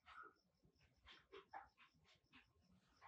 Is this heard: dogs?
yes

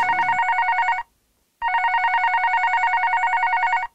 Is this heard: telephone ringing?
yes

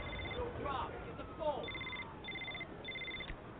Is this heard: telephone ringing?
yes

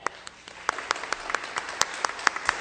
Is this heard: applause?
yes

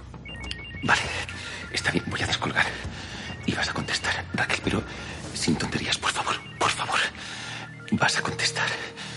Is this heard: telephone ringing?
yes

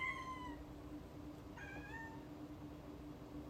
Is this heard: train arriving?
no

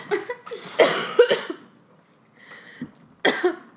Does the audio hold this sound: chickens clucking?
no

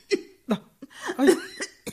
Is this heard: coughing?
yes

